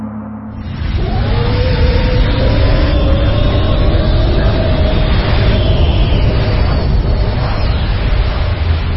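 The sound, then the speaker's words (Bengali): A rocket descending from the sky as a radio drama sound effect: a deep roar swells in over the first second to a loud, steady rumble with a whining tonal edge, sustained throughout. “আকাশ থেকে রকেটটা নেমে আসছে তার গন্তব্যস্থলের দিকে।”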